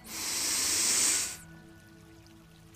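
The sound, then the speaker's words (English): A deep exhale of breath during a guided relaxation breathing exercise: a long, steady, breathy rush that holds for over a second, then drops off abruptly into near silence. “Take another deep breath in.”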